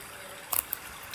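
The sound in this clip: Clear fresh water flowing in a spring-fed stream through the town of Bakar: a soft, steady trickling rush, fairly faint, broken once or twice by brief light splashes or clicks.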